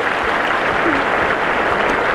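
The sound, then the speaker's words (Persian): An audience at a guessing-game show applauds a contestant, a dense, steady wash of clapping that holds at an even, fairly loud level throughout. “یه بار دیگه واسه حسن دست بزنیم.”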